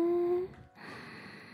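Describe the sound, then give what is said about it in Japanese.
A soft, airy inhalation is drawn during a calming breathing exercise, faint and brief, heard alone without speech. “吐いて、ママにぎゅーってしがみついて、吸って”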